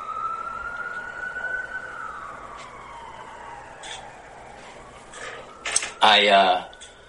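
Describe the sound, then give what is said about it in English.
An ambulance siren passes as a long wailing tone that climbs slightly, then sinks lower over several seconds above a bed of traffic rumble, before a loud, harsh burst of noise near the end. “wait for this ambulance to pass.”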